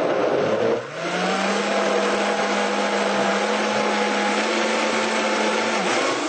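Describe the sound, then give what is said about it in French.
An electric blender whirs as it mixes a preparation, its motor giving a loud, steady high whine. The whine dips briefly near the start, then runs on evenly. “Alors, on ferme bien. Alors, on mélange le tout.”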